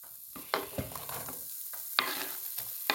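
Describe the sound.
Faint frying sizzle from food in a pan during Jamaican home cooking: a steady, soft hiss broken by a few sharp clinks and scrapes of a utensil stirring.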